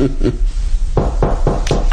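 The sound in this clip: Knocking on a door: several quick, evenly spaced raps close together in the second half, after a couple of softer taps near the start.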